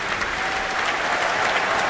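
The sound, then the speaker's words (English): Steady, dense concert applause from an audience cheering the Berlin Philharmonic horn section and its principal horn. The clapping is thick and even, with no breaks or voices standing out. “And now cheers for the horn section under the principal horn, Stefan Dohr.”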